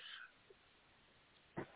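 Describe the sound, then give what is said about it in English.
Dogs playing and whimpering: faint, brief yips, with a short whine at the start and a quick sharp yelp near the end over a quiet background. “I'm sorry, my dogs think it's like playtime.”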